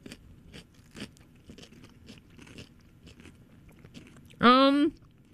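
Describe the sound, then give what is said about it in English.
Someone bites into and chews a cucumber sprinkled with sugar, giving a run of faint, crisp crunches and clicks, then a loud, drawn-out voiced sound near the end. “We've spread some sugar on top of the cucumber, and when we bite into it, it's supposed to taste just like watermelon.”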